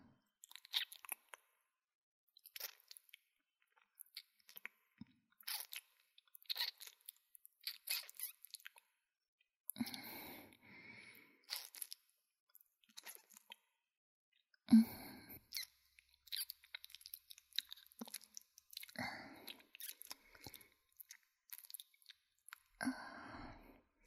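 Crunchy chewing and biting while someone tastes food: many irregular crisp bites and wet chews come in short clusters with brief pauses. Soft overall, with no talking.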